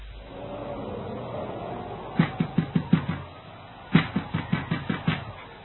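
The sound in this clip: Rapid knocking on a door in two separate bursts of several sharp, evenly spaced raps each, the second burst opening with a heavier blow, over a low steady background hum.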